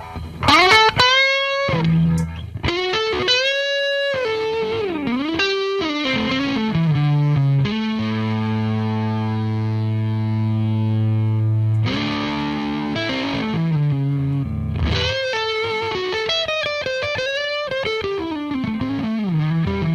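Electric guitar, a replica Les Paul, playing a distorted lead line with bent, wavering notes, short melodic phrases and a long sustained low note held in the middle before the quick bending runs return.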